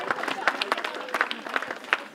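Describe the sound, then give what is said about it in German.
Scattered applause for volunteers at a community neighbourhood event: uneven, sparse claps of varying loudness, with voices underneath. “Einen großen Applaus für alle Ehrenamtlichen.”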